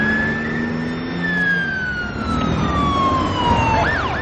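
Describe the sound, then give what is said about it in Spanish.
Police patrol car siren driving away, a loud sustained tone whose pitch slowly drops, then switches to a quick wavering wail near the end, over a low rumble. “Lo meten en un coche patrulla y se lo llevan.”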